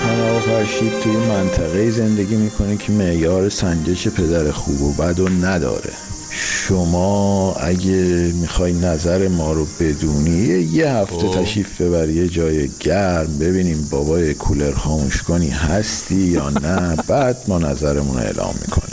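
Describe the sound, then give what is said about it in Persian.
Crickets chirp steadily in the background, a constant high shimmer that runs for the whole stretch beneath continuous talk. “بابا این صدای جیرجیرک بود، سیرسیرک بود، چی بودون؟”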